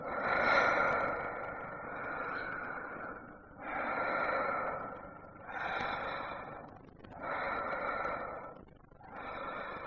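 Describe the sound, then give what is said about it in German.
A woman breathing deeply: several slow, rhythmic breaths, each a broad, airy rush that swells and fades, with short quiet gaps between them. No other sounds are heard. “Noch einmal das tiefe Atmen einer Frau zu hören.”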